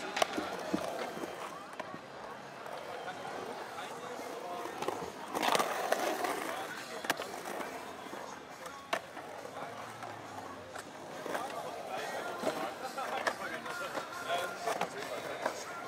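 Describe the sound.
A skateboard rolls at a skate contest during a backside tailslide, with a rumbling roll broken by sharp clacks and scrapes of the board, while voices talk over it throughout.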